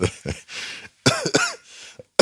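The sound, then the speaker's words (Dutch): Coughing from smoking low-quality tobacco: a rough fit of several hacking coughs in quick bursts, some with a raspy, throaty edge, separated by short pauses and a breathy stretch. “ik heb een gekke hoest van de lage kwaliteit tabak die je hier hebt”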